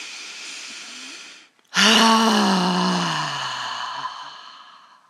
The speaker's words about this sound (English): And again, just exhale right down into the earth.